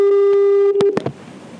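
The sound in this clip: Telephone ringback tone as a call connects from a phone box: a steady, loud, harmonic-rich tone holds for under a second, then breaks into a few sharp clicks before fading into soft noise.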